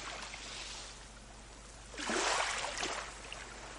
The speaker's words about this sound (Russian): Вздымаются паруса, и нос корабля рассекает морскую гладь. Вы слышите шум волн,